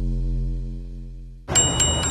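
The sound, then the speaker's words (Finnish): Bright clinking chimes from a jingle in a bank's radio advert: a low, steady tone gives way to three sharp, high metallic clinks over a busy, shimmering texture. “Onpas kilkatus, ihan päässä soi. Niin, se on sitä Dansken oivaltamisen ääntä.”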